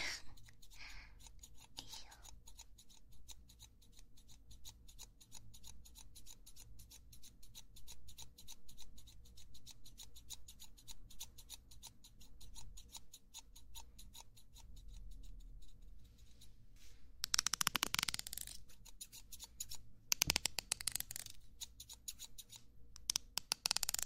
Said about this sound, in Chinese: 再帮你稍微修剪一下哦